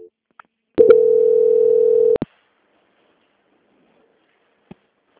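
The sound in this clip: A telephone tone sounds as a call is transferred to a bank's quality control team: one steady mid-pitched tone lasting about a second and a half, with faint clicks around it and no talking.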